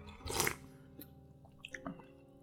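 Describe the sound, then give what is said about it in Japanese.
Soft chewing of bacon from a Nissin smoked bacon curry cup noodle, starting with one fuller munch and followed by a few faint, moist clicks, all quiet and without talk. “ちょっと旦那さんもベーコンいただきますかね。”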